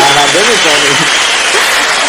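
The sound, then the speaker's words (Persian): Audience cheering hurrah: a loud, dense roar of many voices, with a few shouted tones rising above the steady wash of noise from start to end. “این هورا های شما یکی از با ارزشترین تشویقاییه که برای ما هست.”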